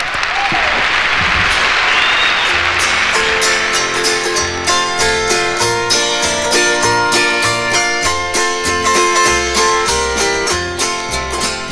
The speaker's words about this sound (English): How about a real nice welcome for Mama Maybelle Carter? Here she is.